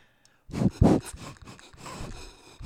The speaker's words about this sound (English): And I felt the breath from across the studio. That's so gross on me. And I smell bourbon.